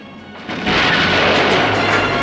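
Explosions rock a submarine control room in a film as the sub crashes into a wall, a deep booming roar that swells in after a brief lead-in and then rumbles on, loud and sustained.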